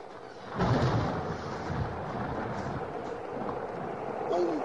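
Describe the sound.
Heavy, fast-falling rain pours on a cold day as a dense, steady hiss, swelling with a deeper, louder surge shortly after the start and holding constant afterward.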